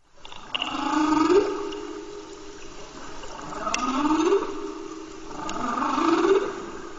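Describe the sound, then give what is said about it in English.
Humpback whale song from the North Atlantic, boosted and sped up: three swelling, sweeping moans, each gliding upward in pitch to a squeal. Watery hiss runs between and beneath them. “Let's let the whales speak. Here's the sound of humpback whales in the North Atlantic. This recording is boosted, sped up for the human ear.”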